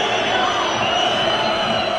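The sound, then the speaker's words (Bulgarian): Football crowd at a Levski versus Salzburg match, booing and whistling during a throw-in: a steady, dense roar of many voices that holds at an even level throughout, with no distinct individual calls standing out. “Освирквания”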